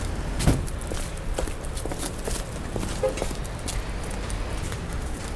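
Footsteps crunch steadily through falling snow on a Stockholm street, a faint, even walking rhythm of many steps over soft wintry background noise.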